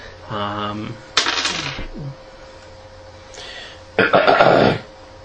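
Throat clearing, with a low voiced hum followed by two harsh, noisy bursts separated by a pause. Each burst is short and gravelly, and the second is loud.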